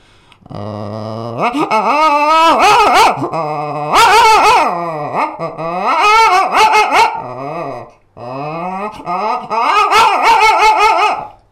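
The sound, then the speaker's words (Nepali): A person imitates a dog yelping and whimpering as if about to be hit. The loud, wavering yelps come in a few long bursts separated by short pauses. “अब त्यो कसैले हान्न लाग्दाखेरि चाहिँ यसरी प्रतिक्रिया दिन्छ होइन कुकुरले.”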